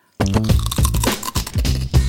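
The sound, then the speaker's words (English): Barbecue and Parmesan cheese crisps crunch loudly, with many quick, crisp bites and chews following one another in a fast, uneven rhythm. “She's eating a wisp. It's a wisp. It's a BBQ wisp and Parmesan cheese.”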